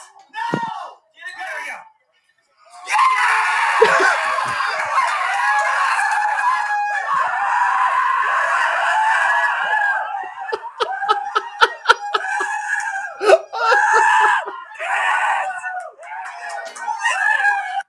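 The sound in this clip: Four people screaming, whooping and cheering in a garage while watching a tournament game: a few brief yelps, then a long, loud, sustained burst of excited yelling with laughter, breaking into choppier shouts toward the end.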